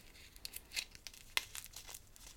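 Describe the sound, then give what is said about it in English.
Aluminium foil crinkles and crackles as it is crumpled and pressed into a small boat-shaped dish for burning frankincense resin in a wire rack, a quiet run of many crisp rustles with a few sharper snaps. “So I'm like making a boat, I guess you'd call it, out of the foil.”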